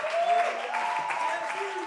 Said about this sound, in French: Est-ce qu'on peut lui faire une ovation ce soir à notre roi des rois?